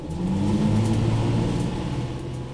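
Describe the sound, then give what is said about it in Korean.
A bus engine runs as it starts and drives off, a loud, steady, low mechanical drone with humming tones underneath and a faint whirring layer above. “그런 속에서 버스는 출발하고”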